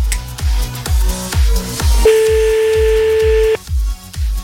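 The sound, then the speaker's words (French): A telephone call is dialed and rings: one steady ring tone holds for about a second and a half over a repeating thumping music beat. No voices are heard. “Allez, j'espère qu'il va décrocher.”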